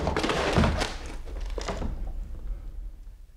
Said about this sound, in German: Man bricht die Tür auf.